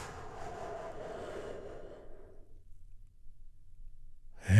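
A deep breath taken in and let out during a guided relaxation exercise: a soft, broad rushing of air that fades away over about two and a half seconds, then near silence.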